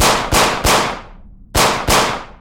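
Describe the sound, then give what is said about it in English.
Pistol gunshots fired repeatedly in a corridor: a few sharp, loud bangs arrive in two close pairs, each with a quick attack and a short decaying tail. No voices. “I fired over and over again, the shots deafening in the corridor.”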